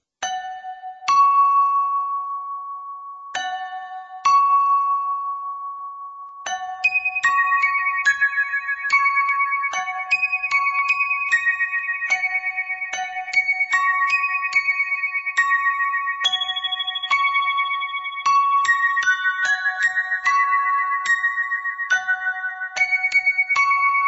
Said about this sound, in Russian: вы вступаете три раза, слегка дергая веревку и раскачивая колокол. Затем перерыв и снова повторяете то же самое, плюс один удар.